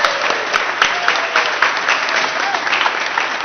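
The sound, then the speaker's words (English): A church audience bursts into applause: a continuous wash of many hands clapping, fairly loud and even throughout, with no talk on top. “So massive round of applause for these two guinea pigs”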